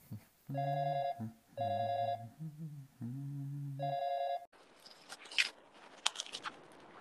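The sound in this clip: Telephone ringing on a call while waiting for someone to answer: a few repeated ring bursts with bright, steady tones. Lower tones fall between the rings, and a stretch of noisy rustling follows at the end.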